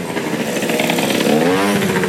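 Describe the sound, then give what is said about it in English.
A moped engine buzzing loudly past, a steady, raspy high-pitched whine that fills the whole moment and shifts in pitch as it goes by, with no voices over it. “Some pricks coming past on a moped.”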